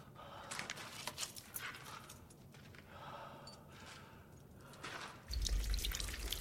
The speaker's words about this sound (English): Water trickles down through a fissure near to Sarah.